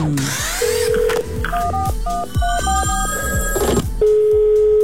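Telephone tones for an incoming call to a radio station's phone line: a quick run of short, stepped electronic beeps, then a sustained steady tone, fairly loud throughout.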